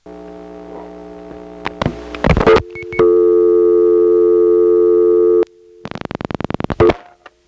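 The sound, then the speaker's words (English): A steady dial tone on a rotary dial payphone line rises over a faint humming line. Bursts of clicks come first, then the loud, even tone holds for a few seconds, and a quick, regular train of dial-like clicks follows. “This is a Smyrna rotary dial payphone, and we're calling Powers Ferry. I've just dialed a 9, and this is not a second selector. There is a soft dial tone in the background.”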